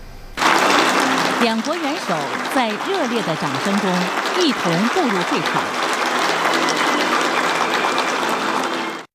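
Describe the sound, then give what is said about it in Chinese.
Warm applause fills the Great Hall of the People in Beijing as the Chinese and Russian heads of state enter the opening of the China-Russia Year of Education. A voice speaks over the steady, unbroken clapping. “两国元首在热烈的掌声中一同步入会场。”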